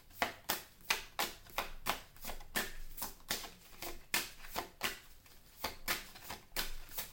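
Tarot cards handled and drawn from a deck, a long series of soft papery swishes and flicks repeating at a fairly even rhythm, faint and with no talk over them.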